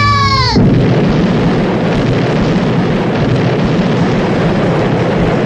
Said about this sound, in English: I got a grenade. I'll blast my way out.